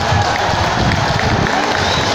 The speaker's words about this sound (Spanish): Vamos a terminar aplaudiéndoles a nuestros adversarios.